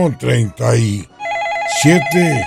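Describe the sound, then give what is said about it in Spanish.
A telephone rings with an incoming call at a radio station: a loud, warbling electronic ring of rapidly alternating tones that follows a burst of talk and is then overlapped by voices. “Entra una llamada.”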